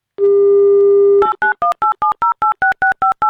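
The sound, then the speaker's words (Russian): A telephone call to a radio listener begins with a steady dial tone lasting about a second, followed by a rapid, evenly spaced run of touch-tone keypad beeps. “Итак, давайте звонить.”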